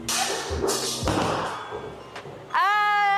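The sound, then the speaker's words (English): A left-handed bowler's first try at a bowling alley sends the ball down the lane, missing every pin: a steady, rough rolling rumble with a few dull thumps, then a sudden loud tonal sound at the end. “Napakaganda ng ating shot dito sa bowling, di ba? Kitang-kita nyo yun. Perfectly missed. We perfectly missed all the pins.”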